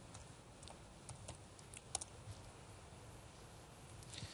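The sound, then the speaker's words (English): Faint typing on a computer keyboard: a few soft, scattered keystroke clicks over a steady background hiss. “So if I type, sometimes it takes a little while.”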